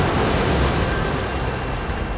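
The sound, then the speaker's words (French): Sea water crashes closed violently over pursuing chariots and horses, heard as a loud, dense, steady roar of rushing water that holds without letup and has no voices. “Mais soudain, La mer se referme violemment sur eux.”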